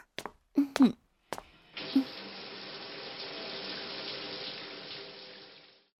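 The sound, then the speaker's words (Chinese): Water runs steadily into a bath, a continuous even rush lasting several seconds before cutting off. A few short vocal sounds come just before it. “我们去洗澡吧”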